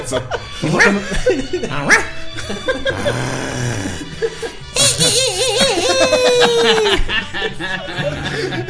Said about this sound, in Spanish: Siempre hay perros, un perro de rancho. Flaco y panzón.